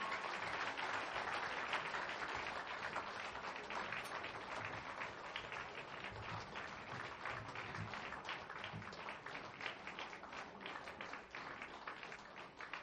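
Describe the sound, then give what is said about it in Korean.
Audience applause for a church district group at an audienceal event, a steady, dense wash of many hands clapping that holds evenly for the whole stretch at a fairly soft level. “다시 한번 주님 뜻대로 살기를 소망하는 우리 오교구에게 큰 박수 부탁드립니다.”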